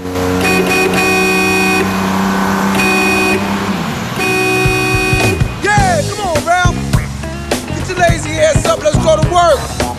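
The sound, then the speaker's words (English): Car horn blares in repeated, sustained blasts as a bus pulls away, steady and loud at first, then giving way to a dense, chaotic jumble of whooping, wavering tones. “He waves back as a car horn blares repeatedly.”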